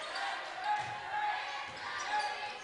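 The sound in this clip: Basketball dribbled down the court during a Fort Payne game, a run of repeated bounces over steady, dense background noise.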